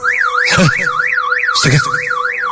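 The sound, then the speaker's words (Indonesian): A car alarm goes off in a garage at night, a loud warbling tone that sweeps rapidly and regularly up and down, broken by two harsh, noisy bursts. “alarm mobilku berbunyi.”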